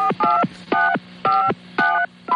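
Telephone keypad dialing tones ring out alone as several short, bright beeps in a steady, even rhythm, each one loud and separated by brief gaps.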